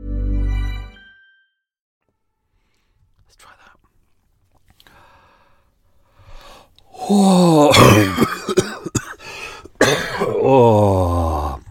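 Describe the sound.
Throat clearing from a dry throat: a brief, low, rasping vocal burst at the start, then a long near-silence, followed by louder voiced sounds.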